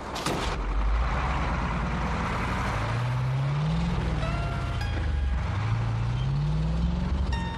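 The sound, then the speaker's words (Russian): Truck pulling away along a road, its engine note climbing in pitch as it accelerates, dipping, then climbing again over a continuous low rumble. “машут вслед грузовику. Тот проезжает мимо зеленого указателя с цифрой 37”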